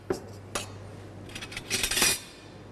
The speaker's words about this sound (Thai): เริ่มจากนะครับน้ำปลานะครับวันนี้เราใส่เรายำค่อนข้างเยอะเราจะใส่3ช้อนนะครับ